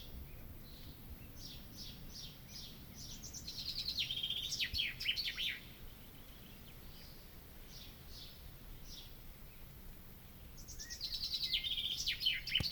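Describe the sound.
A bird calls in a cool spot where scraps of metal are stored: faint, high chirps and twitters that come in two livelier bursts, with sparser calls between them over a soft, steady background.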